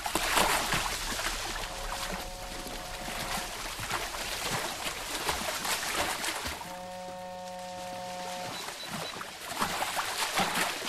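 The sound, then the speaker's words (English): Swimmers thrash furiously around a boat, making continuous splashing and sloshing water with irregular surges of spray, while a faint tonal hum runs underneath. “Zach and Dan swim furiously round to the other side of the boat where the jacket is hanging.”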